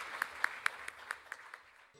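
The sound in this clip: An audience claps to welcome a speaker to the stage. Seven evenly spaced claps stand out over a faint wash of clapping, and the sound thins out and fades near the end.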